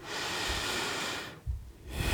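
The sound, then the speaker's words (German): A deep, slow breath: a long airy exhale, then a short pause before the next breath begins, soft and breathy. “Einfach mal tief durchatmen.”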